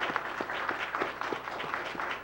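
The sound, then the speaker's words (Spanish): Faint applause from the audience at an international congress on constituent assemblies, honouring the event organizers; even, continuous clapping at low level throughout. “yo felicito a los organizadores de este evento, de verdad, yo pido un aplauso para ellos, porque hicieron una gran iniciativa.”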